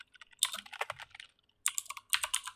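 Clicking keystrokes on a computer keyboard, typed in quick irregular bursts: a long run early on, a pause, then two shorter runs of sharp, bright taps.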